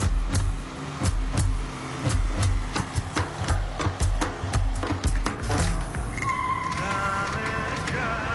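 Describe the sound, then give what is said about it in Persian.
Car driving, heard from inside the cabin: a continuous low engine and road rumble with irregular knocks and rattles. “من هر وقت این ماشین سوار میشم احساس میکنم سرلختم”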